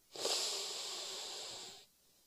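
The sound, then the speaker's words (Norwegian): One slow, calm breath, a soft, steady, airy hiss that lasts under two seconds and then fades to quiet, with no talk. “Da kan vi starte med å puste bare sånn helt vanlig. Inn”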